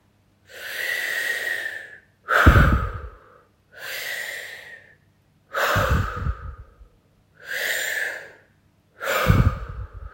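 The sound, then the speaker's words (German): Deep, forceful breathing in and out during a guided breathing exercise: six loud breaths in three in-out cycles, each separated by a short pause, with the out-breaths carrying a rougher, lower rush. “Atme noch dreimal ganz kraftvoll und tief ein und aus.”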